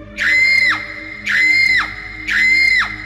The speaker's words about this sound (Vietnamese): Tiếng thét đó như xé toạc bầu trời đêm tĩnh mịch.